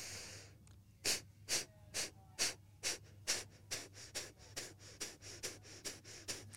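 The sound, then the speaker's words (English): A breathing exercise of forceful exhalations with passive inhalations produces many short, sharp puffs of breath. The quiet, steady rhythm gradually speeds up. “So it's, forceful exhalation and passive inhalation.”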